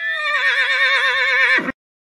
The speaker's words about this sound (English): The farm animal sounds.